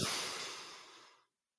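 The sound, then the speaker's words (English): A single deep breath taken in, a soft, airy hiss that starts full and steadily thins and fades away over about a second, with no voices. “Here we go. Take a deep breath in.”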